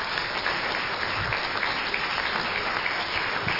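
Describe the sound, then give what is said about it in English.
Applause from an audience greeting a guest speaker: a dense, even wash of clapping that holds steady from start to end, with no voices over it. “So please give a round of applause to our guest, Michael von Berg,”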